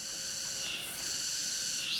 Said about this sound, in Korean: 맴맴맴맴. 매미가 우는 소리에 귀가 먹먹했다.